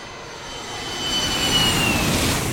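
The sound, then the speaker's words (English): Jet aircraft roaring at JFK Airport's Terminal 7, a broad, steady engine rush that swells louder midway and holds, with no voices. “New York City's JFK Airport, Terminal 7.”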